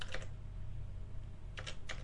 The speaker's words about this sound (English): I'm going to type it in the chat room as well.